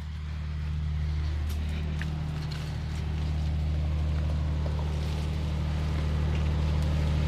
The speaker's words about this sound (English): I can hear the generator going. Would we be able to just go and have a quick peek at it to see what it sounds like up close?